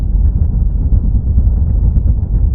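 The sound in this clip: Aircraft wheels rolling on the ground in a flight video game as the plane taxis out of a hangar, a loud, steady, low rumble that holds constant throughout with no talk.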